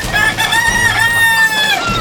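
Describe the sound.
A rooster crows loudly in one sustained, harmonic call that wavers slightly in pitch and lasts about two seconds.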